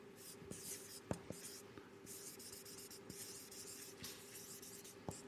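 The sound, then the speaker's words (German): Handwriting with a pen on paper, a faint, steady scratching that runs throughout, broken by a few sharper taps as the pen strokes and lifts. “Ich schreibe das mal so auf”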